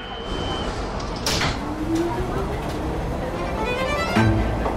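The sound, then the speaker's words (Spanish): Metro train doors closing at a station: a sharp burst of sliding movement, then a rising mechanical whine over steady rumbling noise, ending in a solid thump. “Estación. Cerrando puertas.”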